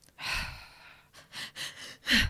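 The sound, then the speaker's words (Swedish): Shallow, unsaturated breathing is demonstrated: one longer breathy draw followed by several short, uneven puffs and a final sharper breath, all airy and choppy with no speech. “Till exempel att ett icke-mättat andetag kanske låter så här...”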